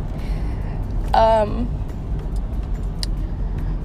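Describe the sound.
Car interior noise while driving to work: a steady low road rumble runs throughout, with a brief higher tonal sound partway through.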